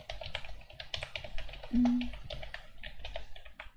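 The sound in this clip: Typing on a computer keyboard makes a quick, irregular run of light clicks throughout, with a brief low tone sounding once midway.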